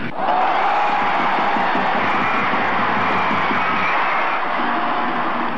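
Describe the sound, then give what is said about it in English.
A crowd roars and cheers at a baseball game after the bat hits the ball. The cheering is loud and sustained and holds steady for the whole stretch. “the sound of the ball hitting the bat. Sometimes you can tell when it's going to be a home run, right? Just the sound of the bat.”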